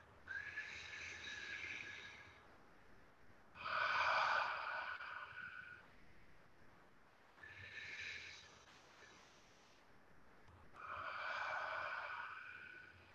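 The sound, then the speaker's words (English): Slow, deep breathing during a guided meditation: four long, airy breaths of about two seconds each, separated by short pauses in an even rhythm, soft and with no voices. “And follow me in the breath. Breathe in.”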